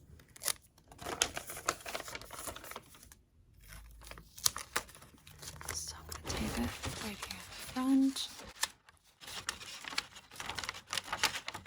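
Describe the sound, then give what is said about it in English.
Adhesive tape being pulled and torn while wrapping a gift, heard as soft ripping and crinkling bursts of uneven length that start and stop irregularly, all fairly quiet. “And I'll probably need another piece so that I can tape it to this piece here in front of you.”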